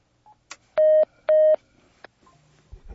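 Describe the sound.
Telephone ringback tone from an outgoing call: two long, steady, mid-pitched tones of equal length sound in clear succession. A few short blips and clicks surround them, and faint low noise follows at the end.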